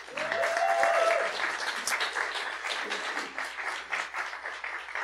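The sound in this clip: Audience applause welcoming hosts at a live event in Atlanta's Kirkwood neighborhood: steady clapping throughout, loudest in the first second and then continuing evenly.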